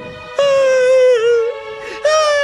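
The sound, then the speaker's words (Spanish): A voice imitates Bernardo the elephant crying in pain in a children's story: a loud, sustained, wavering wail that wobbles in pitch, dips briefly, then breaks off and starts again. “Bernardo se puso a llorar de dolor y de pena.”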